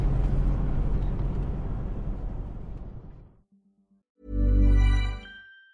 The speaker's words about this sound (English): So yeah, let's keep driving.